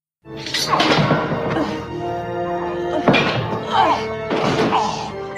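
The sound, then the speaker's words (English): Heavy thuds and whacks from a Star Trek fight scene in which Dax wrests free during a bat'leth bout and throws Worf to the floor, loud impacts mixed with voices and sustained tonal sound. “Worf gets the Batleth off Dax, but she throws him to the floor.”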